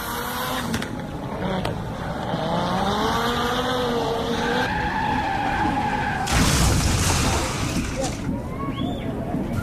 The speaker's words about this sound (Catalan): Aquesta ha fet una derrapada a la corba. El pròxim al grau espero que faci alguna cosa impressionant. Llavors ho pengem a les històries d'Instagram. Allà ve, ja estic gravant. Tio, aquest va massa ràpid.